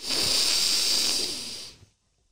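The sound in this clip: A deep inhale through the nose during a guided relaxation breathing exercise: one long, steady, hissy breath lasting under two seconds, then silence.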